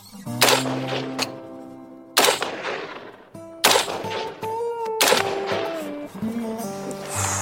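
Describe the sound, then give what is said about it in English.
An AR-15 rifle fires several loud, sharp reports, spaced apart, each cracking out and then decaying in a short ringing tail. “taught me the ins and outs of the rifle. Then it was time to shoot.”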